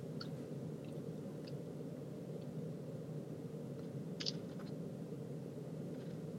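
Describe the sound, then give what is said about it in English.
Someone eats and chews food, giving faint, soft, moist chewing clicks scattered over a steady low hum, with no talk. “I'm eating, but I'm not enjoying.”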